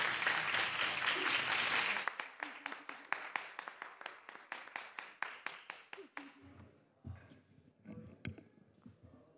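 Applause in the Senate chamber: a dense burst of clapping for about two seconds, then it thins into many scattered individual claps that fade away toward the end.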